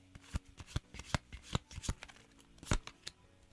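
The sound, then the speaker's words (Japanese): Playing cards are shuffled in many sharp, papery snaps and riffles, coming in an irregular rhythm with a few louder accents, heard alone at a modest level without any talk. “カードを切る音がね出ておりますけどね”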